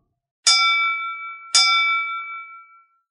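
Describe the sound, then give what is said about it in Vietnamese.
Two clear bell strikes ring out in a great hall before an auction, each bright, high-pitched and loud, with a long shimmering decay, spaced about a second apart. “ba tiếng chuông vang lên lanh lảnh, vọng khắp đại điện.”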